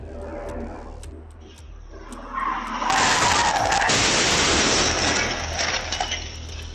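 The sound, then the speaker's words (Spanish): Loud crash as a pickup truck speeding out of control slams into a car and a chain-link fence. A dense, noisy impact with breaking glass and crunching metal holds for several seconds. “una camioneta fuera de control y a toda velocidad se dirigió directo hacia ellos. Vamos a ver lo ocurrido.”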